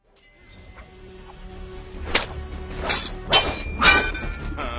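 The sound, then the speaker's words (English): Lion-O's Sword of Omen clangs in a Thundercats cartoon: four bright, ringing metallic strikes come in quick succession, growing louder over a low rumbling background. “Look at the way he wields the Sword of Omen! There it is! The Thunder Smack! That's his signature move right there.”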